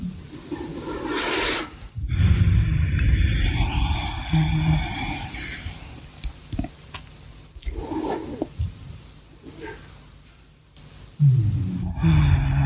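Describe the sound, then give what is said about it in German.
Slow, deep breathing into the lower belly during a yoga session in child's pose. Long, airy inhalations and exhalations alternate with soft rustling, and there is no speech. “Atme tief in den Unterbauch ein und aus.”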